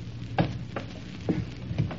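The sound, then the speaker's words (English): A match is struck in a few short, scratchy bursts spaced unevenly over a quiet, steady background hiss. “Flip another match, baby face. There he is.”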